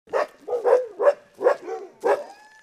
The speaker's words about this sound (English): Iditarod veteran John Corda's dogs bark a sad hello as we walk into his still flooded yard